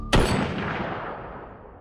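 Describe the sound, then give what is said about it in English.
A single gunshot: a sudden loud crack that swells into a booming tail and slowly fades away over more than a second. “You shoot your gun, which does not require a roll of any kind because it is a gun.”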